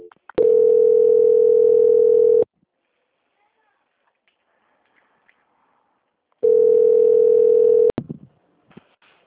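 Telephone line tone during a call transfer: two long, steady tones at one flat pitch, the first about two seconds and the second a little shorter, with near silence between them and a few brief clicks at the end.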